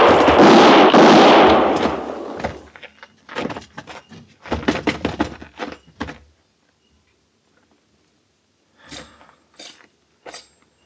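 Gunfire in a radio western drama: a loud blast opens, then a rapid run of sharp cracks, a stretch of silence, and a couple more brief, sharp reports.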